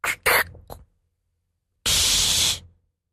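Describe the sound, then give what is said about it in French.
A person uses their mouth to imitate a soda bottle being opened. A few quick clicks and pops come first, then a brief pause, then a loud, sustained breathy hiss for the fizz. “Une bouteille de soda qu'on ouvre”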